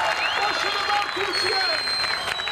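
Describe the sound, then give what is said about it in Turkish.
A crowd with Turkish flags cheers and applauds the national team in front of a giant screen in Konak Square, Izmir: a continuous, dense roar of clapping and voices that stays level throughout. “İzmir'de ise Konak Meydanı'nda dev ekran kuruldu. Çok sayıda kişi Türk bayraklarıyla, tezahüratlarla milli takıma destek verdi.”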